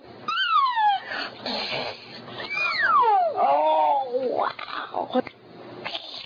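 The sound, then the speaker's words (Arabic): A little girl imitates a cat's meow, her voice producing a few drawn-out, wavering, high-pitched glides that rise and fall like mewing, loud and close throughout. “طفلة صغيرة بريئة بتحاول انها تقلد اصوات الحيوانات، يقول لها قطة تعمل مياه.”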